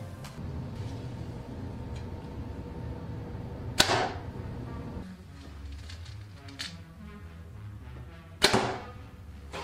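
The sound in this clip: Two arrows loosed from Bowtech bows shot without a sight, each a sharp, loud snap and thwack, a few seconds apart over a low steady background hum.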